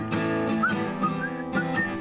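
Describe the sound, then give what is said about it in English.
A person whistles a song melody in short, tuneful notes with a few sliding pitches, over a steady harmonic background. “This is a whistling part you're supposed to do. Okay, I'll do it.”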